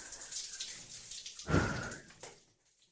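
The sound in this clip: Water drips and splashes in a hot bath. Faint scattered drops patter, then one louder splash sloshes in the middle and trails off into quiet.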